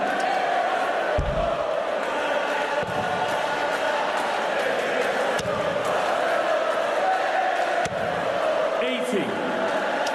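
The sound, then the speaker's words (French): A darts crowd sings a chant for the player Nathan Aspinall, a loud and continuous wall of massed voices that holds steady across the whole clip. “Et le public qui chante pour Nathan Aspinall.”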